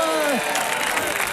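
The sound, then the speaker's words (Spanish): Concert audience applause and cheering, a dense wash of clapping that runs throughout the short moment, with a voice calling out at the start. “¡Ale! Otra ovación para Albertucho. ¡Vamos!”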